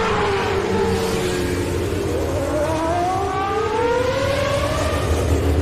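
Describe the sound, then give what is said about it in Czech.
A Formula 1 racing car engine howls loudly, its high harmonic whine climbing in pitch again and again over a dense steady roar. “Poznali jste? Ano, mám v ní Formuli 1.”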